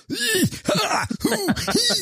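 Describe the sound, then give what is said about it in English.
Coughing and throat clearing from a person who has suddenly started coughing, heard as four strained, groaning bursts in quick succession, each one arching up and back down in pitch. “And then all of a sudden I just started coughing. I don't know why.”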